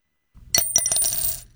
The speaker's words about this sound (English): That's the sound of a single quarter dropping into a jar.